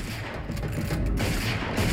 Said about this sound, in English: The cars pull up outside the motel room and several henchmen get out. Two of them shoot open the door.